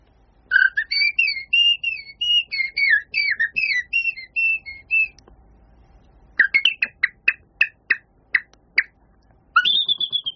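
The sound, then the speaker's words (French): Male common blackbird singing its courtship song: rich, warbling whistled phrases repeated for several seconds, then many short, sharp contact calls in a broken series, before the fluting song starts again. “c'est le premier oiseau que j'ai entendu, ouais. Et c'est le merle noir.”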